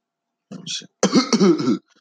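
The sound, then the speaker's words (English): Coughing from someone who has just hit a blunt of weed: a short hoarse burst, then a longer, rough, voiced coughing fit lasting under a second. “Coughing his ass off.”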